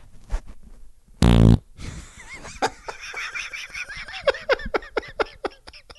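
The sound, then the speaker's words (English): A single loud, blaring fart bursts out, followed by many squeaky, sputtering chirps and short snorting noises. “That was a classic American ripper, if there really is one. The other ones did not sound like that. The other ones sounded like Chinese sweatshop farts.”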